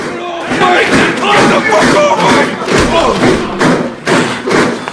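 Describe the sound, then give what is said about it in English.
Heavy thuds and scuffling as prison officers force a prisoner up against a wall, several hard thumps landing amid loud, overlapping shouting voices throughout. “When he reaches the end, two prison officers force him up against a wall.”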